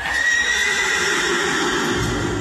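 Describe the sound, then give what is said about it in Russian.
A horse neighs loudly in a dining room it has walked into, a drawn-out whinny over a dense, noisy background with no clear pauses. “раз бургомистр не может выйти посмотреть на лошадь, лошадь сама придет к бургомистру. Это проще простого.”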